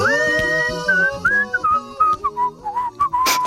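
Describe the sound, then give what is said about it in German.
A whistled tune: a bright, wavering melody of many short notes that glide up and down, carried over a soft musical backing with no talking. “Ich habe versucht mitzupfeifen, aber da bleibt selbst mir die Luft weg.”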